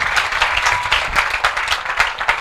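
A church audience applauding during a worship service: loud, lively clapping from many hands, with crisp individual claps standing out in an uneven rhythm throughout.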